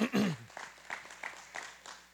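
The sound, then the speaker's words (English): Audience applause at a church service, a spread of hand clapping that rises in a few soft bursts and stays fairly faint, with a voice heard briefly at the start. “Let's give my friend another big hand clap. Come on, we like to clap.”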